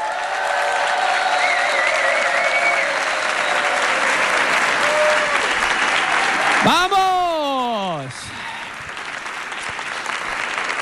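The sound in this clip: A large crowd of tens of thousands applauds and cheers in a dense, steady roar of clapping. Midway a loud voice shouts over it, and the applause then eases slightly.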